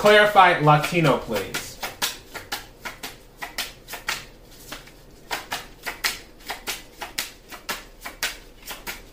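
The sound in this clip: Tarot cards being shuffled and drawn, heard as many crisp, papery flicks and snaps in quick irregular runs, with short gaps between bursts.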